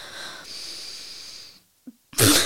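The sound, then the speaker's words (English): A deep breath drawn in during a guided breathing exercise: a short, loud, breathy rush of air that bursts in at the very end after a moment of near silence. “Let's be a little bit more discreet about our deep breath in.”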